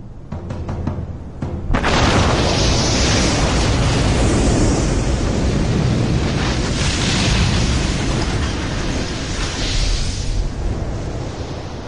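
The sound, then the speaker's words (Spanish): Sudden loud blast from a test detonation of a replica shoe bomb aboard a passenger plane: a few faint clicks, then a broad burst that turns into a sustained, roaring rush lasting about ten seconds. “Este avión tiene una réplica de la bomba de Reed, y esto es lo que hubiera sucedido.”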